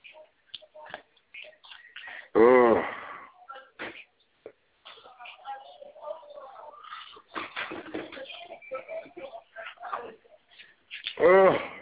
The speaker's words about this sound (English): There was a dog. Don't like dogs. Get away from dogs.